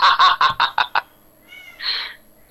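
A cat meowing in a quick run of six short, bright calls, then a pause and one longer, drawn-out cry.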